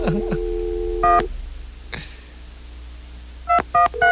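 Touch-tone keys pressed to dial a number on an office's new phone system: a brief held line tone, then a few short, separated dialing beeps spaced out over a low background hum.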